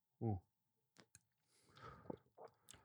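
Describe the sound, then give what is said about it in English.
Ice clinks in a glass of WhistlePig 10 Year small batch rye, overproofed at 50%: a few faint, sharp clicks scattered over a couple of seconds, with a short voiced murmur at the start. “But now let's try it with a little ice.”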